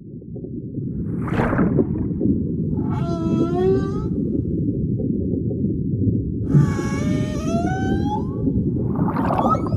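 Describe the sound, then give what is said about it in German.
Fin whale sounds recorded underwater: several rising, harmonic moaning calls surface over a continuous low rumble that stays loud and steady throughout. “So klingt ein Finnwal beim ganz großen Geschäft.”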